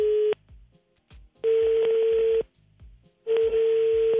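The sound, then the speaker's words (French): Telephone ringing tone heard while calling someone's home. Three steady mid-pitched beeps of about a second each are separated by short gaps, and the first beep is cut short. “Ouais, c'est parti, on fait sonner chez Alex.”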